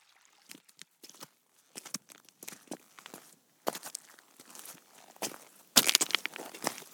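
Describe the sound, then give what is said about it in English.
Footsteps walk through woods, giving irregular soft crunches and rustles of trodden undergrowth. The steps are quiet at first and grow louder and busier toward the end. “A lovely walk through the woods, isn't it”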